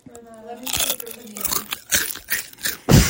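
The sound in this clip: Someone chomping while eating a crunchy chip, making several irregular, loud crunching bursts of chewing after a short voiced sound at the start, with talk mixed in.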